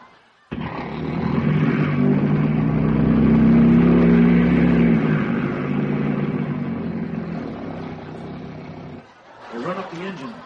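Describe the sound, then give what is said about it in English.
A plane's engine starts and runs as the aircraft taxis out toward the runway. A loud, steady droning rumble with a tonal hum holds for about eight seconds, then drops away before a voice speaks briefly at the end. “The engine starts, the plane taxis out to the end of the runway.”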